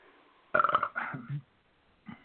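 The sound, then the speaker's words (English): A loud burp after drinking beer: one drawn-out, rough, gurgling belch that rises out of near silence and fades, followed by quiet. “That was a nasty burp, too.”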